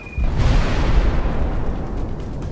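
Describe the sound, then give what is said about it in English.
Four 250-pound bombs dropped from a Hudson bomber explode on an anchored ship, with one sudden loud blast at the start followed by a heavy, sustained rumbling roar that slowly fades. “He checks his approach and then hits the release button, laying down four 250-pound bombs.”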